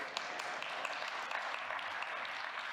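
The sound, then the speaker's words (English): Faint applause from a church audience, a soft, even patter of many hands clapping with small scattered sharper claps, steady throughout without building or dying away. “I thought you'd give yourself a clap for that.”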